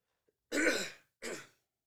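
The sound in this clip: Throat clearing comes as two rough, raspy bursts, the first longer and stronger, the second shorter. The sound stands alone, with silence around it.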